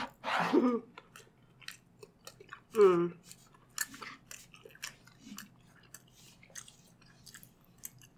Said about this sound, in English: I'm dipping the kale into the chutney.